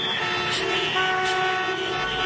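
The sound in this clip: Car horns honking in traffic on a street in Baku: sustained, steady horn tones layered over a continuous low rumble of road vehicles.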